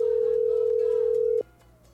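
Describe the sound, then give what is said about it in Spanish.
A telephone dial tone sounds as a phone line is opened to call a listener. It is one steady, loud pitch held for about a second and a half before cutting off abruptly, leaving a faint hum. “Así que vamos a marcar ya un oyente.”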